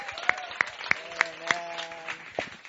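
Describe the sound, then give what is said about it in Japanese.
Applause welcoming a group of seventeen visiting students from Oral Roberts University, heard as fairly faint, evenly spaced claps over a low background murmur. “So you guys can just get, there's 17 of them, so stand up and let's give a warm round.”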